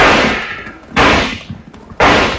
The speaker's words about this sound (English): Nice shooting